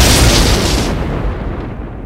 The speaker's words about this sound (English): Then there came a crackling electrical explosion from within the wreckage,